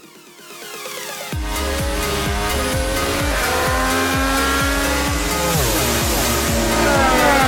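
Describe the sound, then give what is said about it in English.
Race car engines roar at the finish of the 103rd Indianapolis 500. A faint hum swells within about a second into a loud, continuous high-pitched engine whine. The pitch falls as cars sweep past, then the roar stays loud to the end. “He'll go to victory lane. Simon Pagenaud wins the 103rd running of the Indianapolis 500-mile race.”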